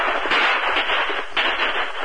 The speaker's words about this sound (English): He fired repeatedly in the faint hope that a lucky shot would stop the Lone Ranger.